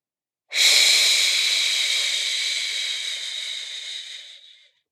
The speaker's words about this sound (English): as you count to four and then we'll blow it out slowly through your mouth. Breathe in, two, three, four, and